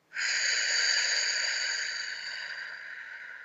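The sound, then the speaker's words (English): A single long, airy breath during a guided breathing exercise. It starts abruptly, holds a steady breathy hiss for about three seconds, then slowly fades, with no voices. “let's take a breath. Breathe in through your nose, out through your mouth.”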